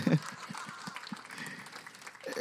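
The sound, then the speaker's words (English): Applause from a church audience at a Memorial Day service: a steady, even wash of many hands clapping that continues for the whole clip. “Please clap for yourselves now.”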